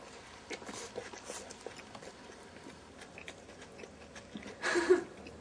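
Eating a Sonic No. 1 burger: quiet, soft wet chewing clicks and crunches, then a louder bite-like burst near the end.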